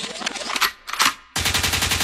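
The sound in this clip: A gunshot sound effect: a few short bursts of rapid shots, a brief gap, then a loud, sustained rattle of rapid fire continuing to the end.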